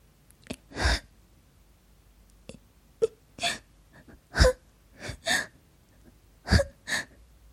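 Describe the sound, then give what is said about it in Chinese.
A woman cries softly, with faint sobbing gasps and breathy catches coming in many irregular short bursts separated by quiet pauses. “阿秋这时竟然径自掉下眼泪， 怎么，怎么哭了？”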